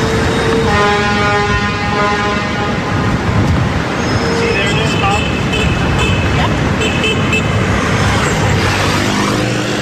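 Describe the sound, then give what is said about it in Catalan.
Street traffic in New York City, a dense continuous rumble of car, truck and bus engines cut by several car horn honks, some held and others short, with voices faintly mixed in. “amb aquest so de motors, de clàxons tan característic”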